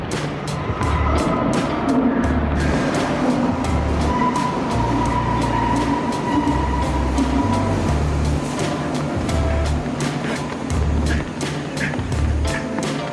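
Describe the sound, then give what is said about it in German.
A subway train runs in Berlin with a loud, steady rolling rumble and rhythmic low thumps that continue throughout. “Nein, die Bahn ist wirklich hier!”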